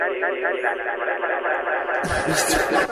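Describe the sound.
A talking voice carries a strong, 1980s-style echo effect, its words smeared into a ringing, repeating tail, before a second voice breaks in near the end.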